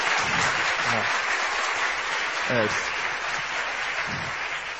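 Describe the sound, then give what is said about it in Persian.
Audience applause, a dense and steady wash of many hands clapping that holds at an even, loud level throughout, with faint voices briefly audible beneath it. “یه دست درست حسابی بزنی خدا وکیلی.”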